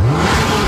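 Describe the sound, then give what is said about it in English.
A car engine revving, a brief loud burst of mid-pitched engine roar and whir with a slight upward sweep in pitch near the start. “Can you hear that? That's not just horsepower. That's the sound of summer.”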